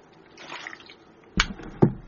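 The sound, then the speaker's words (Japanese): Someone drinks Hokkaido Suisai no Mori soft mineral water: a faint liquid shuffle is followed by two sharp, distinct gulps spaced about half a second apart. “あ、引き続き北海道水彩の森軟水いただいております。”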